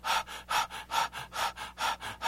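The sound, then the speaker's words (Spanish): Rapid hyperventilation breathing, the quick, agitated kind used to vent distress: a steady train of short, sharp breaths at roughly four per second, each a puffy rush of air, even in loudness and alone without talk. “puedes hacer una hiperventilación, o sea, respirar muy rápidamente, agitadamente,”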